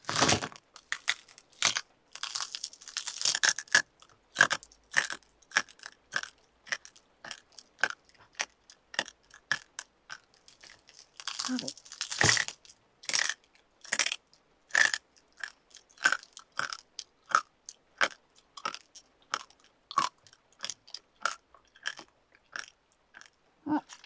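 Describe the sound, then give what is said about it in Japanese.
Crunchy chewing and biting of food containing small bones, a long run of many sharp, rhythmic crunches with brief pauses, no talking. “食べてるとこあんまり見ないで、恥ずかしい。”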